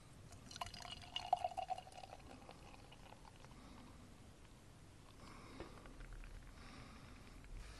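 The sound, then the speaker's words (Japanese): Liquid is poured out of a can, a faint trickle with light bubbling and dripping that is loudest early on and then settles to a low, steady wash. “別にこの音聞かせてもっていう感じですけどね。注いでいきます。”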